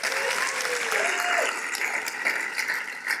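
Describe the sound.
An audience applauding to welcome a speaker, with dense, steady clapping that holds at an even loud level for the whole stretch and no clear talking over it.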